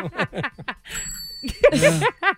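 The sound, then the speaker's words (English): A small bell dings once amid lively chatter, its bright, high ring lingering for about half a second between bursts of talk and laughter. “Ring the bell. Somebody ring the bell.”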